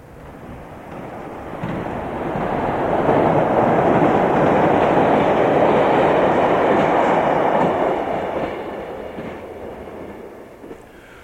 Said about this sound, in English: We asked you to identify it, and in 25 words or less, comment on its environmental significance. Listener Christopher Smith correctly reported that it was a subway train